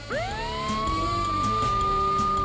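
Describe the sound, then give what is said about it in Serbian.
Police car sirens wail, the tone sweeping sharply upward and then holding a loud, steady high pitch without a break. “A napolju bruje policijski automobili u potrazi za njima.”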